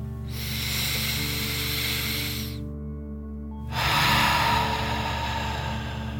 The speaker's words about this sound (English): Deep breath in and out.